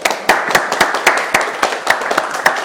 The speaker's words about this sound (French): Super, on applaudit Michael?